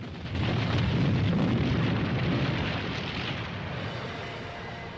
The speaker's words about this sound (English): Huge boulders are falling from above now as Malone and Roxton run to the passageway. Just as they make it inside, the cavern behind them is destroyed in a cataclysm of fire and smoke.